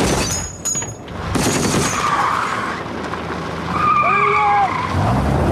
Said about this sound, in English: The four-wheel drive suddenly skids and swerves erratically. It drives off the road in a wide U-turn, then rejoins the road again and speeds off the way it came.